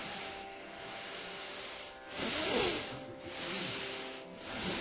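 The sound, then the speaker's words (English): Slow, deep breathing during a breathing exercise: long noisy breaths that swell and fade in a few broad waves, with no voice over them. “We want to breathe very deeply. You will see your organism will awake in a little while.”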